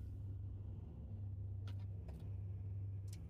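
Faint, steady low engine and road rumble of cars, including two large black cars with dark-tinted windows following behind, a continuous drone with no voices.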